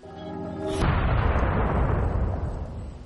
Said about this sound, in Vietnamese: có một đạo ánh sáng chói lóa bộc phát ra, tạo thành một tiếng nổ vang kinh thiên động địa, trực tiếp tấn công khôi lỗi.